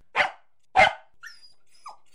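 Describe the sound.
A small dog gives two sharp, loud barks about half a second apart, followed by a few faint, high-pitched squeaks or whimpers against an otherwise quiet background.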